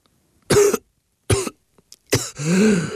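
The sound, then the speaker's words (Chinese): Weak coughing from a feeble man lying on a bed, his lungs still sore from choking: a few short, harsh coughs spaced apart, then a longer rasping cough that trails off. “气息微弱地咳了两下，应该是肺里被呛的地方还是不舒服”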